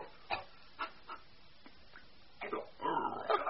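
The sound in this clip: A dog whimpers and yips while being praised and offered milk in a bowl: three short, faint cries come first, then a longer, louder run of whining and whimpers.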